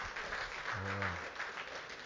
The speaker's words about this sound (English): Y'all give God a hand clap of praise.